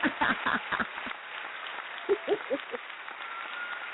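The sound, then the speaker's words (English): A short burst of audience applause as an ovation. A few sharp claps open it, then it thins to faint, scattered clapping and crowd noise, with a muffled, narrow-band quality. “Yeah, that's an ovation. You get the ovation.”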